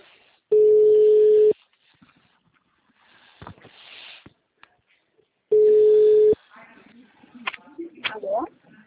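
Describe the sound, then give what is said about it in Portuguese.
Telephone ringback tone while placing a call: two steady, mid-pitched beeps of about one second each, roughly four seconds apart, with faint background noise and murmured voices in between and after. “tá chamando, tá? Tô ligando.”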